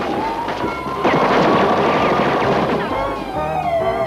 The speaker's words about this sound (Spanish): ¿Quién está disparando? ¡Baja y dispárame!